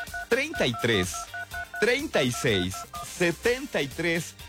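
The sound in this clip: Telephone keypad dialing tones beep in a quick series of short, steady pulses under continuous talking, as a number is dialed for a call-in.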